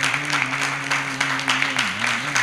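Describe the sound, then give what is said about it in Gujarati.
Audience clapping during a Hindu religious discourse at Vadtal, a run of rhythmic claps over a sustained tonal drone that dips briefly in pitch near the end. “આ બધા તાળીઓ એટલે પાડે છે કે હવે છૂટા કરો.”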